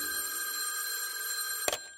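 A telephone rings with a bright, sustained electric tone that holds steady throughout. A brief, sharp knock cuts in near the end.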